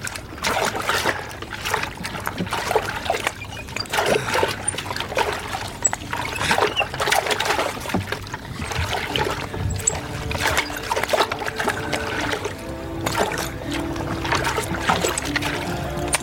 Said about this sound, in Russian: На лодке обследуют дно реки.